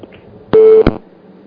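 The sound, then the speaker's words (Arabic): Telephone tone after a dropped call: a single short, steady, mid-pitched beep set between sharp clicks, with near silence before and after. “للأسف انقطع اتصال ام ايه.”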